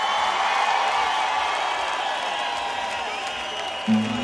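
A festival audience cheers and applauds loudly, a dense, steady roar of clapping and crowd noise that holds at an even level throughout.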